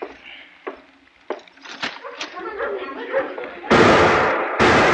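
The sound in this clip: Two loud, sharp gunshots ring out from an old trapper's gun as he goes on a drunken spree in town, coming close together after a stretch of people talking.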